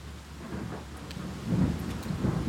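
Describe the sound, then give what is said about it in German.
Low thunder rumbling with a soft hiss of rain, fairly faint, swelling louder around the middle and again near the end, with no voices. “Hörst du den Donner?”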